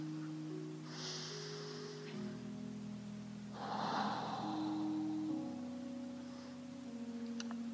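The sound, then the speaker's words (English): A slow, deep breath taken during a guided prayer practice, a soft breathy intake followed by a longer, fuller exhale, heard over a quiet, sustained musical drone. “Just close your eyes, and I want to start with just a deep breath.”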